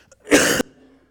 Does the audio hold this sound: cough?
yes